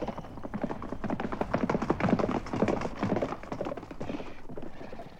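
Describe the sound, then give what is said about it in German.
A horse gallops hard along a river at night, its many hoofbeats pounding in a fast, driving rhythm that eases slightly softer near the end, heard without voices. “Wie ein Trunkener hetzte er sein Pferd entlang des Flusses zum Lager der Tramps.”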